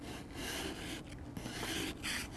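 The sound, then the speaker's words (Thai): A hand tool scrapes a hardened section off, making a continuous gritty rasping that is moderately loud with a few brief dips in level and no voices. “ส่วนตรงนี้มันจะแข็งกว่าก็ใช้ขูดขูดขูดออก”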